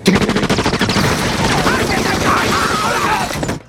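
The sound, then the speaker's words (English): Loud, rapid gunfire from the film 14 Fists of McCluskey: quick bursts of cracking shots follow one another over a busy, noisy background for just under four seconds. “And I watch the 14 fists of McCluskey. What a picture. What a picture. Good picture, yeah. That is so much fun. All the shooting.”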